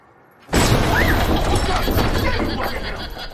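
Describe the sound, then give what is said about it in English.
A door bangs sharply in a film, one sudden loud hit after near silence, followed by a sustained heavy roar. “As Carver passes the door, it bangs sharply.”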